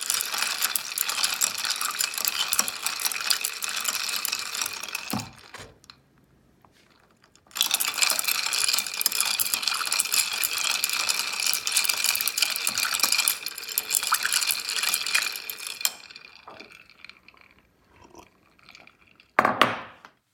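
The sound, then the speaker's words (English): Ice cubes clinking as a glass of ice water is stirred: two long stretches of rapid, bright rattling split by a short pause, then quieter scattered sounds and a sharp knock as the glass is set down. “That was the sound of me stirring a glass of ice water. So she is stirring a glass of ice water and then taking a sip and putting the glass back down.”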